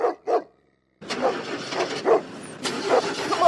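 A car engine cranking and struggling to start in a cartoon: two short bursts, a brief silence, then a continuous sputtering churn of the starter with pulsing surges.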